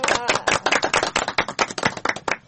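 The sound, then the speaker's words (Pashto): Audience clapping after a correct answer on a quiz show: many sharp, uneven claps in a quick irregular burst, loud and without talk. “بالکل سم جواب دی، راکړ چک چک ورته وهي.”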